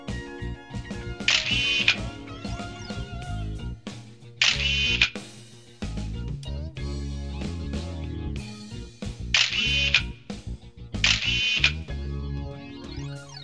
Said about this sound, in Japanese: 写真撮ってくれ。